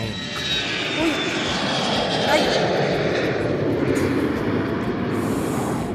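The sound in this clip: Airplane landing at Tucumán, heard as a steady, loud engine roar that fills the whole stretch with little change in level.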